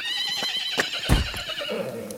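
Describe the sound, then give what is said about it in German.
A horse whinnies in a long, high, wavering neigh, with a few hoof clops mixed in. “Sofort will er auf dem Pferd reiten.”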